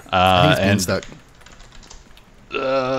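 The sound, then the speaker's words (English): Quick, quiet computer keyboard clicks come as a web address is typed, in a short burst set between stretches of talking. “Let me just type it in right now.”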